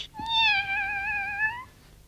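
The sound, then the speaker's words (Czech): A live kitten meows from inside a parcel: one clear, drawn-out, high-pitched meow that holds steady, heard alone against a faint background. “V tom balíku je živé kotě.”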